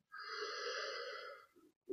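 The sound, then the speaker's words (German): A deep breath drawn in through the nose during a guided relaxation, a steady, whistling, wheezy inhale lasting about a second and a half, then a brief softer breath. “Nimm ein paar tiefe Atemzüge durch die Nase ein”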